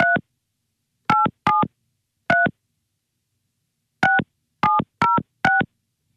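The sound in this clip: A telephone number being dialled by keypad: eight crisp, clipped dual-tone beeps in uneven groups, with a long silent pause partway through and nothing else between the tones.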